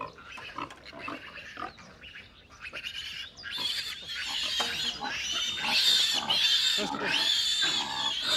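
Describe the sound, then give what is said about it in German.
Pigs grunting and squealing as sows lead their piglets out to pasture, the piglets on the grass for the first time. A dense, continuous run of many high, shrill calls that grows louder in the second half. “Hauptsache, die Sauen marschieren in die richtige Richtung. Die Ferkel folgen sowieso.”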